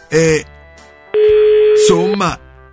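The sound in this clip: Telephone ringing heard down the line during a call, one long steady tone held for nearly a second, with short voice-like sounds just before and after it.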